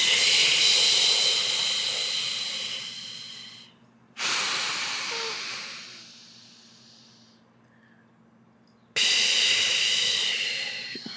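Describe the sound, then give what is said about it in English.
Long, slow exhales in a breathing exercise, heard as three airy breaths. Each starts strong and fades gradually over several seconds, with a faint low hum beneath. “One more time. And exhale for eight.”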